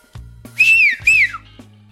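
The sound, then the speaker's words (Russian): A man whistling at a crossroads to call someone gives two clear, high whistled notes in quick succession, the first held steady and the second sliding downward at its end. “На перекрестке остановился и свистнул. Никто не отозвался. Он еще раз свистнул.”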